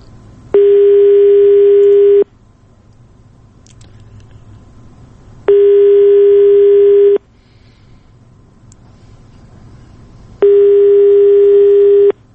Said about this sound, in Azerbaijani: Biz hələ də telefon xəttindəyik və gözləyirik ki, Fuad Muradovla əlaqə yarada biləcəyik.